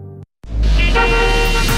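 A car horn honks in a traffic jam: a short steady blast, a brief silence, then a longer loud sustained honk with a low rumble beneath.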